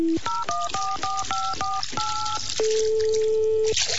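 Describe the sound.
Telephone keypad dialing: a quick run of short, evenly spaced touch-tone beeps, followed by a longer held tone and then a steady single tone that lasts about a second.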